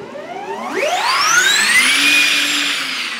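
A Formula E electric race car pulls away with a loud electric whine that climbs steeply in pitch over about a second, then holds a high, steady scream until the end, with no voices.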